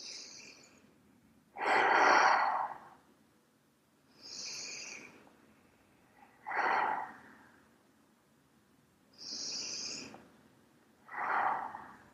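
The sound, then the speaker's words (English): Three slow, deep breaths taken during a guided body-listening relaxation exercise, each a soft hissing inhale followed by a louder, lower, breathy exhale, with long even pauses between them and no talking. “Just take three breaths.”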